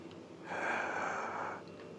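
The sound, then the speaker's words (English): A single deep inhaled breath taken before speaking, a soft, airy rush lasting about a second that rises and fades on its own, quiet and without any talk over it. “Let me take a deep breath before I say the name of the song.”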